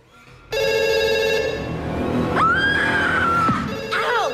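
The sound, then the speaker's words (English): A telephone rings in a house with a loud, steady electronic ring lasting about a second, followed by a sliding, wavering high tone and a brief return of ringing at the end. “looks round in horror at the ringing phone”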